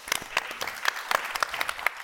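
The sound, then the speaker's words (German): Theatre audience applause for a small comedy troupe on stage: sparse, scattered individual claps, many distinct sharp hits at an uneven pace, fairly light overall. “Also vielen Dank, Applaus an euch, dass ihr da seid.”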